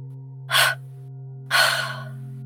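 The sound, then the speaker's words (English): Breathing in a guided relaxation exercise: a short breath in through the nose, then a longer, airy exhale out of the mouth that trails off. Both are soft and unvoiced over a steady, low sustained drone. “And one more inhale in your nose. And out of your mouth.”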